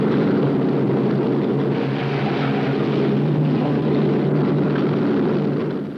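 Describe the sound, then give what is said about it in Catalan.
An airplane engine runs with a loud, steady low drone and broad roaring hum that holds constant, easing slightly at the very end. “En Víctor Laszlo va en aquest avió.”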